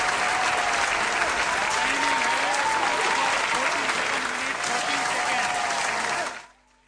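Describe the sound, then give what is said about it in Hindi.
Loud, sustained applause for the winners on stage at an award ceremony, with voices rising over the dense clapping; it stays steady for about six seconds, then quickly dies away. “Arpita Saini, जोरदार तालियों से”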